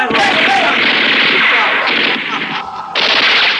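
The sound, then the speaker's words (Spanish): Gunfire from guards shooting blindly into the jungle: a dense, sustained barrage of rapid shots fills the whole clip, loud and unbroken, with a brief dip near the end before the firing surges again. “Los guardias disparan a ciegas contra la selva, hacia las sombras del refugio.”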